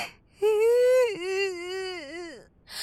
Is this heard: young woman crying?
yes

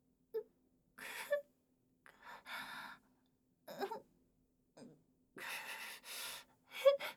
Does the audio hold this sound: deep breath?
yes

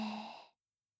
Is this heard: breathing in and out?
yes

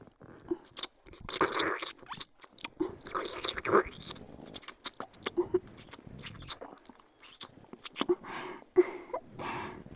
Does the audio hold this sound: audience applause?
no

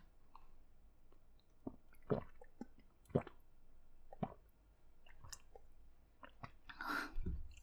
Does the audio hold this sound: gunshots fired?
no

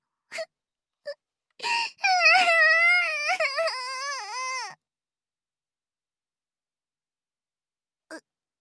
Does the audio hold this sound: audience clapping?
no

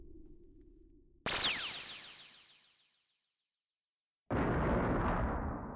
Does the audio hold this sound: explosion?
yes

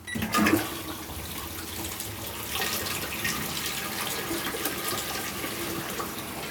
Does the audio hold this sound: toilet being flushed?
yes

